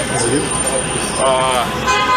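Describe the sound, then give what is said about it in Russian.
City traffic with car horns honking: a constant roar of road noise with short tooting horn tones rising out of it a couple of times, and voices mixed in. “город действительно, вот мы идем сейчас, город весь гудит.”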